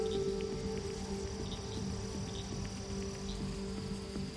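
Frogs croak at night after rain in a steady, continuous chorus of high chirring trills and pulsing calls. The sound stays even in loudness throughout, with no voices.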